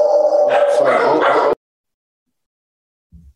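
A dog in a home office barks and yips loudly for about a second and a half, then goes quiet. Only a faint low thump follows near the end.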